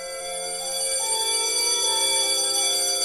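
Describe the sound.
A bell rings with a loud, sustained metallic tone. Many steady overtones hold throughout without a break, and the ringing stays strong to the end.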